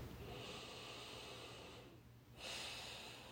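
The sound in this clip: A big deep breath taken during a tapping relaxation exercise: a long, airy rush of breath that drops away briefly near the end, then returns stronger.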